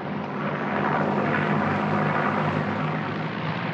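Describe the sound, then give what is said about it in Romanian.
An airplane landing: a loud, continuous engine roar mixed with broad rushing noise that stays steady and unbroken throughout. “Aterizează! A aterizat! Extraordinar! A executat aterizajul ca un pilot încercat.”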